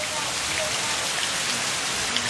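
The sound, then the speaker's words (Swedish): Heavy rain falls outside during a sudden downpour in Sri Lanka, making a dense, steady hiss that never lets up for the whole clip. “Ute regnade kraftigt.”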